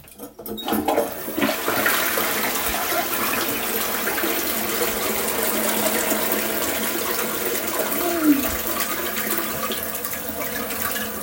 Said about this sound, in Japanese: あー、くさいくさい。流していきます。